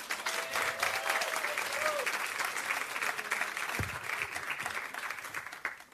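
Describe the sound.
A church audience claps to welcome a speaker, an even, sustained wash of applause lasting about six seconds at a fairly constant level.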